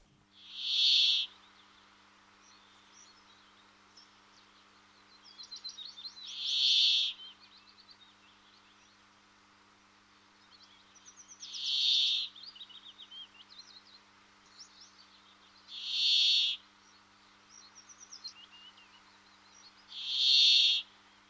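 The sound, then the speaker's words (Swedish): Brambling song, a finch of summer forests: five harsh, buzzing wheezy notes repeat at roughly even intervals of about five seconds, with faint softer chirping between them and a low steady hum underneath. “Men jag har ju hört bärfinken, men det är under sommaren. Och då höll den sig i skogen. Det var i skogen jag hörde bärfinken. Då lyssnar vi på den.”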